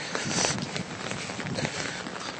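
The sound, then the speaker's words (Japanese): Footsteps of someone walking down a back alley while holding an umbrella: faint, steady steps at an even walking pace. “傘を差しながら手に iPhone を持って喋りながら歩いてるわけですけど”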